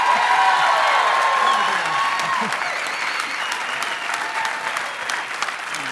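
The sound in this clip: Loud, dense applause from a church audience at Elevation Church welcoming their pastor back for a sermon series, sustained throughout and easing slightly toward the end.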